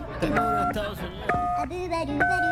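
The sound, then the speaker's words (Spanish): Telephone keypad tones dial a United States phone number, a few steady pitched beeps sounding one after another alongside a speaking voice. “Le voy a marcar de inmediato, amigo. Vamos a marcarle de inmediato al presidente. Número de Estados Unidos. Este número de Estados Unidos, ¿eh?”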